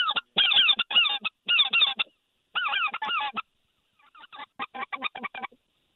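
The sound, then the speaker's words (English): Honking from a flock of hundreds of geese flying overhead: many loud, overlapping nasal honks in rapid bursts, with a gap before a thinner, fainter run of calls near the end. “there's hundreds of geese coming over us right now”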